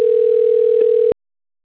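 A telephone dial tone sounds while a call is being placed: one steady mid-pitched hum lasting about a second that cuts off abruptly into silence.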